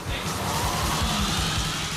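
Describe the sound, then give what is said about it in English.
Airport service trucks, including a portable staircase, a conveyor belt truck and a baggage trolley stuffed with suitcases, drag race down an empty runway at night. Their engines roar loudly and continuously throughout. “a drag race between all of those weird-looking trucks you see at the airport, the portable staircase, the conveyor belt truck, and the baggage trolley stuffed with suitcases, all of them racing down an empty runway at night.”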